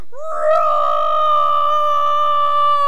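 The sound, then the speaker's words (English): A human voice imitates a lion's roar with a loud, sustained tonal cry. It climbs quickly in pitch at the start, then holds steady and rich for about two and a half seconds, alone with no other sound. “Mr. Lion went from kitty, kitty, kitty, kitty to”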